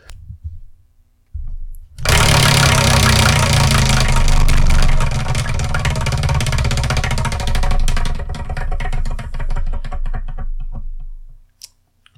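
A spinning manga prize wheel gives a dense, rapid run of loud ratcheting clicks that lasts about ten seconds and then stops abruptly, with no talk.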